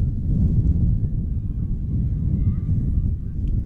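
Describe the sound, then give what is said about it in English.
Wind buffeting the microphone at an outdoor high school softball game, Richmond at Algonac, as darkness falls: a continuous low, rumbling roar that holds at a fairly even level throughout. “The darker it gets, even the harder the wind blows.”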